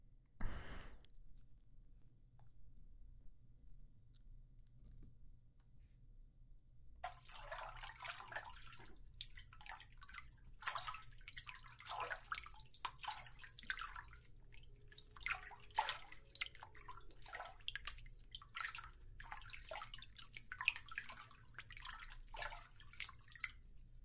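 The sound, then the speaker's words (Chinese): Bath water running and dripping: after a brief splash near the start and a stretch of near silence, a steady wash of water sets in with many irregular drips and splashes, fairly quiet, with no voices. “洗澡去了。”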